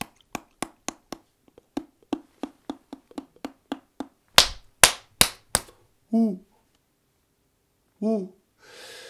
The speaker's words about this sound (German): Sie klatscht mit den Flügeln aufeinander. Das ist ein mechanisches Balzgeräusch. Und dazu gibt es noch sowas wie Schnabelknacken. Das klingt ja so.